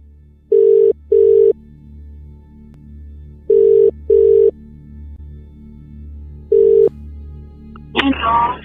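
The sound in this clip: Ringback tone of an outgoing telephone call: steady mid-pitched double pulses in two pairs, then a single pulse, with quiet gaps between, before a voice briefly answers at the very end.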